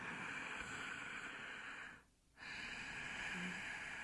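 Yoga breathing drawn through a constricted throat with the stomach held locked: two long, steady, airy hissing breaths separated by a brief pause, fairly loud and without talk.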